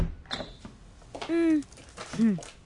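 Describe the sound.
A door opening as someone enters a home gives two squealing, creaky hinge squeaks, each briefly rising and falling in pitch, over a low background.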